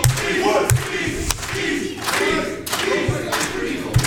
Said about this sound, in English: I hope the crowd is chanting for the right beast.